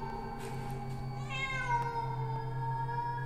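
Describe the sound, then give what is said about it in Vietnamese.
A cat meows once in the quiet of night, a short mid-pitched wailing cry rising over a steady low hum. “Lại là nó, lại là tiếng của con mèo kêu lên.”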